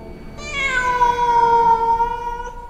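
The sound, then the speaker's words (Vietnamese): A cat's meow, one long drawn-out cry with a clear harmonic tone that holds steady and fades slowly at the end, heard alone. “kêu lên ngao một tiếng như mèo kêu”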